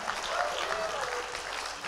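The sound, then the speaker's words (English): Church audience clapping and shouting together: dense, steady applause with scattered raised voices mixed in, loud and continuous for the whole short stretch, with no pauses. “Clap your hands and shout.”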